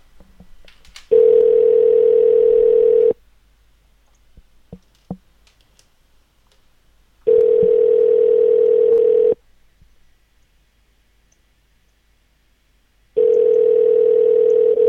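A telephone dial tone sounds through a broken phone system: three long, steady, mid-pitched tone bursts separated by silent gaps, the last one cut off at the end.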